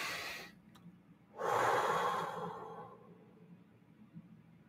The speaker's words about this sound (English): So let everyone take a breath in.